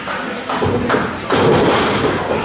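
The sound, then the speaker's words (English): A dull, heavy thud of a pro wrestling boot kick to the head lands over steady background noise, and the noise grows louder and denser after the impact. “Oh, wow! Boot to the head!”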